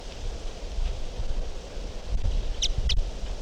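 A bird gives two brief, high chirps in quick succession, faint against a steady background of wind and rustling.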